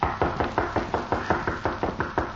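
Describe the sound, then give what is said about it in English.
Knocking on the rear door of a home: many evenly spaced, firm raps in a steady rhythm with no voices. “A short time later, Gimp knocked at the door of the Cutler home.”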